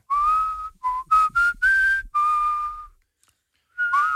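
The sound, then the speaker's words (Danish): A person whistles a tune: a string of clear, bright notes, some short and some held longer, followed by a silent pause before one more whistled phrase starts near the end. “Og nu fløjter jeg bare det, jeg godt kunne tænke mig at høre jer fløjte.”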